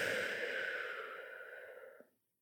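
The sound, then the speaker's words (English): A long, deep breath out, like a sigh, taken during a guided stretching warm-up. The airy rush starts fairly loud, fades gradually for about two seconds, then stops into silence. “You might join me to do a really deep breath in, the biggest one you've done all day. And breathe everything out.”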